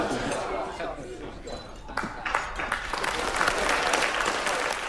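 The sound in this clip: Wedding guests applaud after a toast to the bride and groom. A voice is heard briefly at the start, then scattered claps grow into loud, sustained applause that builds and holds to the end.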